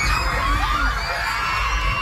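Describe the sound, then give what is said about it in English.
Children scream and shout while huddling outside their school on the island of Mindanao during a 7.8 magnitude earthquake. High, wavering cries rise over a steady, loud rumbling roar throughout. “Children screaming as they huddle outside their school on the island of Mindanao, the tremor shaking them from side to side.”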